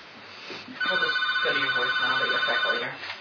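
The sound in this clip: A telephone rings with a steady, high electronic tone lasting a couple of seconds, while a person keeps talking over it and leaves the call unanswered.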